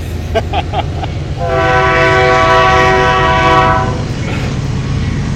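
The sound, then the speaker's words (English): A real train passes, sounding one long steady horn blast of about two and a half seconds over a continuous low rail rumble. “By the way, that's a train in the background, a real train.”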